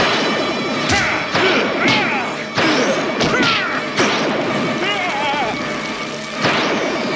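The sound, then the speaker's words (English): A bullet striking a shape-shifting alien in a dramatized story, within a loud, dense barrage of crashing impacts, thwacks and warbling, whooshing effects. “That last bullet hits, and Bright Star stumbles.”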